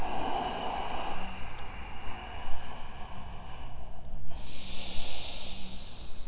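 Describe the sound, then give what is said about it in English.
Ujjayi yoga breathing: a soft, steady, ocean-like hiss of air drawn through a narrowed throat, swelling and easing in long, slow breaths. “work to lengthen your breath here. Your ujjayi breath is a, it's really a tool that you can lengthen and shorten as much as you need.”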